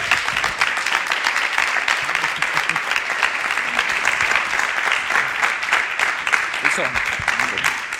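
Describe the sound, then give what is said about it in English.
Warm audience applause greets a speaker coming on: a thick, continuous wash of clapping that holds steady for about eight seconds. “Let's give Dan a real, real warm welcome.”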